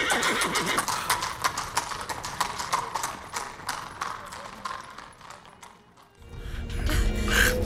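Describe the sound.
A horse's hooves clop in a fast, rhythmic patter of many sharp beats, and the horse also gives a whinny. A low rumble swells near the end.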